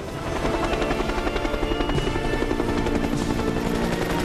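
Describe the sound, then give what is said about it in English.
A military helicopter lifts off, its rotor beating in a rapid, steady thump over a loud engine roar that swells in quickly and holds to the end. “The great aircraft dust off.”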